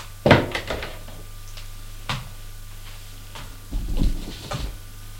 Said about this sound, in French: Ouvre la porte et sort de la pièce.